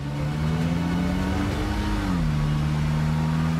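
A car engine hums steadily as the car is driven toward parking, a smooth mid-pitched drone that drops slightly in pitch past the halfway point and then holds level.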